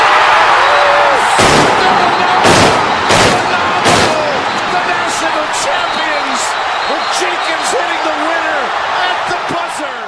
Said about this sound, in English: Remember when Chris Jenkins hits that shot, the guy in the building like launched the fireworks. You heard those big explosions.